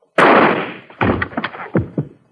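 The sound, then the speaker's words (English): A gunshot fired to blast open a locked door: one loud, sharp bang with a long, decaying tail, followed by several heavier thuds and clatters. “I'm going to shoot the lock off.”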